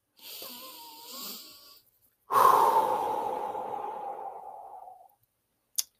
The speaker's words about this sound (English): Breathe in and out deeply. So intentionally focus in on your breath and make sure that they are deep breaths.